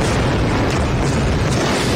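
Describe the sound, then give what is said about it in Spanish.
Bombing explosions at night in Iran come through as a loud, continuous roar that fills the whole clip without distinct separate blasts. “Este es el sonido de los bombardeos esta madrugada en ese país, en Irán.”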